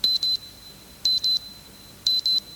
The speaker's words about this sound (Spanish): ¿No te gustaría coger el dichoso despertador y estamparlo contra la pared?